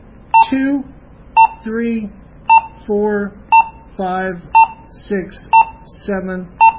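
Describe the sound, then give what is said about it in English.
Short, high-pitched beeps from button presses on a radio keypad, sounding regularly about once a second, with a person speaking in the gaps between the beeps. “I'm going to make sure we're on that high-pitched beep, so I'm going to arrow up, and I'm going to arrow back down. Okay, high-pitched beep, that's 1.”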